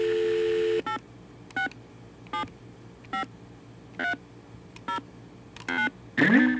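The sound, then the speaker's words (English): Telephone keypad tones dial a number after a steady dial tone. A series of short, evenly spaced beeps of different pitches follows, ending with a louder, longer tone. “And now I'll go ahead and dial a known number.”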